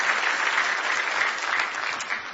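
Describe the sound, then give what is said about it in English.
Congregation clapping hands in praise at a worship service: dense, steady applause from many hands that holds at an even loudness for the whole stretch, with no voices standing out. “Let's give the Lord another good hand clap of praise as you stand with me today.”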